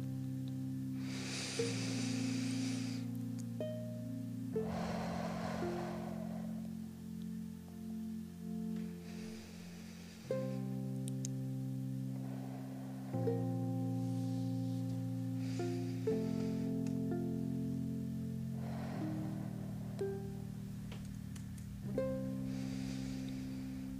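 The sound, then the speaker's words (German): Slow, deep breaths drawn in and let out in a steady, even rhythm. The soft, airy rushes sit over sustained, calm musical chords. “Nun werden wir zusammen zehnmal ganz tief ein- und ausatmen. So sollte dein Atemzug während der gesamten Session sein.”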